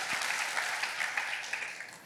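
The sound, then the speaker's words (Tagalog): Applause from a church audience praising the Lord during a Christmas sermon: about two seconds of steady, fairly faint clapping. “Palakpakan natin ang Panginoon sa kanyang kabutihan.”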